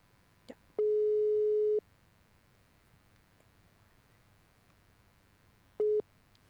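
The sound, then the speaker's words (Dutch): Telephone ringback tone on an outgoing call: a steady, mid-pitched tone lasting about a second, then a long silence before a second, shorter burst of the same tone, with a faint click before the first. “En we gaan hem proberen te bellen.”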